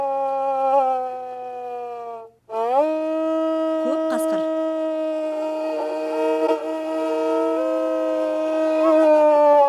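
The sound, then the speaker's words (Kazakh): A wolf howls in one long, loud, sustained tonal note rich in harmonics. After a short break it resumes with a swift upward glide, then holds a steady pitch. “Каскырдын дабысы.”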